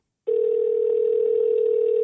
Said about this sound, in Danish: Prøv at ringe til ham.